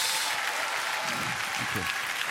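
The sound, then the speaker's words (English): Applause from a church audience fills the whole clip as a dense, steady wash of many hands clapping at an even loudness, with no clear pauses. “Give him your best clap offering in the house.”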